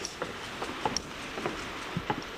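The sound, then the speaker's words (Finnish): Irrigation sprinklers in a garden tick and pulse water, giving a run of irregular sharp ticks over a constant hissing spray. “Kastelulaitteet tikittää tuossa tai tykyttää vettä tuossa vieressä.”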